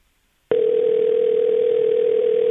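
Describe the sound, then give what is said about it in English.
Ringback tone on an outgoing telephone call: a single steady electronic tone holds for about two seconds and then stops, heard alone with no voices. “we'll uh, see if Max picks up here. Cold calling people.”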